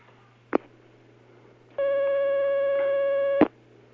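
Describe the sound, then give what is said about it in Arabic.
A call comes in on a radio call-in line, heard as a sharp click, then a steady buzzy tone of about a second and a half that ends in another click. A low hum runs underneath throughout. “معنا مكالمة الآن.”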